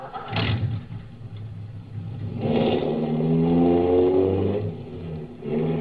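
A car engine runs while driving on a road to a plant, a steady mid-pitched hum that swells into a firmer, revving drone through the middle before easing slightly at the end.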